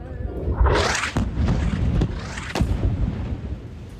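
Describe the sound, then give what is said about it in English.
A loud blast from an Israeli airstrike on a desalination plant in the Sheikh Radwan neighbourhood of Gaza, a broad roaring burst followed by sustained rumble and a few sharp cracks. “This is the moment an attack targeted a desalination plant in the Sheikh Radwan neighbourhood.”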